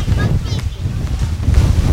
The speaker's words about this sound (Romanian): Momentan se aude vântul, dar oricum.